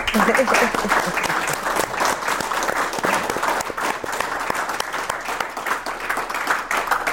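An audience claps in sustained applause, a dense, even wash of many hands that starts strong and holds steady for about seven seconds without dying away.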